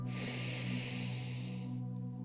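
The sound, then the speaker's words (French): A deep breath drawn in during a guided breathing exercise with eyes closed, a soft, steady airy hiss lasting under two seconds over sustained low tones, then stopping. “Vous allez prendre trois grandes inspirations et trois grandes expirations. Inspirez profondément”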